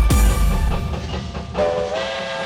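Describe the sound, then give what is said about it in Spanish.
A train running on rails opens with a heavy low rumble and thump, then settles into a rolling clatter with a sustained, whistle-like tonal drone held above it, loud throughout. “El tren sigue su marcha.”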